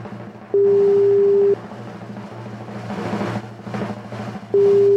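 Telephone ringback tone on an outgoing call: a steady electronic tone lasting about a second, then a stretch of line noise, then the same tone starting again at the end.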